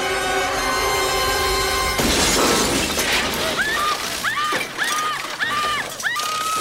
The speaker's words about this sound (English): the TV explodes. I'd love to bust like that one day. Like that TV did? She made the TV explode.